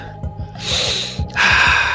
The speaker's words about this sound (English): And, and long, deep breath.